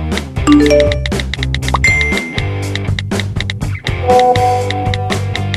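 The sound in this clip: An intro jingle plays loud and alone: bright bell-like dings and tinkling chimes over a steady, punchy bass line, repeating in a brisk rhythm throughout.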